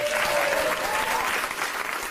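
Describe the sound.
A short burst of loud, even applause from an audience welcoming a performer onto the stage, a continuous wash of clapping with no pauses.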